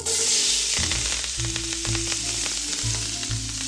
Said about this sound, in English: And now I'm gonna add my vegetables. Okay, in go the onions, celery, and garlic.